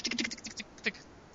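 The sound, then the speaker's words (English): Faint typing on computer keyboards as several people look something up: a quick patter of light key taps, then a pause and one more isolated tap. “The sound you hear is all three hosts going to their IMDb right now.”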